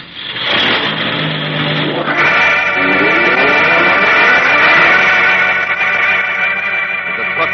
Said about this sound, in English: Okay, drive to the bend and step on it.